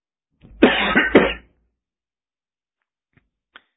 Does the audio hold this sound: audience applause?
no